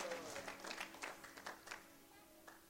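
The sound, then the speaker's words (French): A church audience applauding the Lord during a service: soft, dense hand clapping that is fairly faint and fades toward the end, with a few voices mixed in. “Est-ce qu'on peut acclamer le Seigneur can pendant un instant? The Lord for a moment.”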